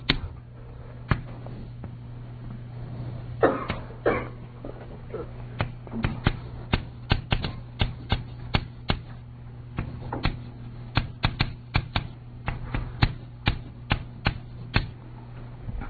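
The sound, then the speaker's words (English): Sharp taps and short scratches from drawing a superconductor phase diagram by hand, many irregular clicks and strokes over a steady low hum, with no voices. “so let me just draw a phase diagram.”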